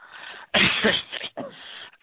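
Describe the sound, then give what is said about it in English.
Deep coughs driven from the belly rather than the throat: a few forceful, breathy bursts in quick succession, each rough and full, with short gaps between them. “Think about coughing down in your belly and cough those things out, not from the throat.”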